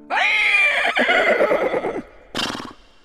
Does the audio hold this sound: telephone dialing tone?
no